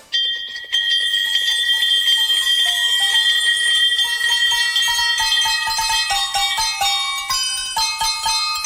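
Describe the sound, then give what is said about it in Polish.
Bells ring out a carol, made from the victory bells rung in clinics when a patient beats cancer: many bright, clear strikes in a steady melodic run that grows busier, with no voices. “Słuchacie właśnie najradośniejszej kolędy na świecie. Złożonej z prawdziwych dzwonków zwycięstwa. Tych, które rozbrzmiewają w klinikach, kiedy ktoś pokonał raka.”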